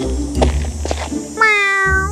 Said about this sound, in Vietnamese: con mèo kêu lên êm ái